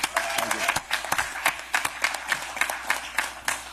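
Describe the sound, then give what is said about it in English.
Audience applause for a senator at an election campaign event, distinct sharp claps landing in a fairly regular pulse over a bed of crowd noise. “If y'all don't mind, I'd like to applaud Senator McKim.”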